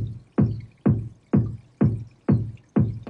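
Sub bass layer of a kick drum sample: seven deep, low thumps at an even, steady pace. Each thump decays quickly, heard alone.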